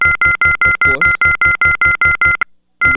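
Touch-tone telephone dialing as a caller is patched into a call: a rapid, even run of many loud two-tone beeps, a short pause, then another tone begins.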